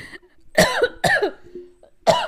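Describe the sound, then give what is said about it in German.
Three harsh, loud coughs after swallowing the wrong way, each a sudden burst with a short tail, separated by brief pauses, the last after a longer gap. “Entschuldigung. Oh oh. Ja, direkt verschluckt vor Aufregung.”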